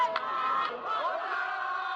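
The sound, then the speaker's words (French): A crowd shouting and cheering in the streets, celebrating France's 3-0 football victory over Brazil: a dense mass of raised voices, whoops and cries that stays loud and steady throughout. “La joie explose dans les rues et une foule en délire célèbre ces héros qui décrochent leurs premières étoiles.”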